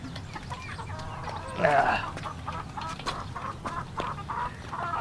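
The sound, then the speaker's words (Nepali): A rooster gives low clucks, and one louder, longer call rises out of them near the middle. A steady, faint background murmur runs underneath throughout. “म त एउटा भाले लैजाउँ भनेर आएको”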